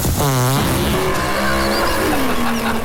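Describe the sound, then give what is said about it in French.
A dragster race car engine roars loudly and continuously, its rough revving tone sweeping up and down in pitch with a dense rumble underneath and no voices. “mon Pietro, moi, je te l'inscris à une course de dragster, je suis sûr qu'il gagne”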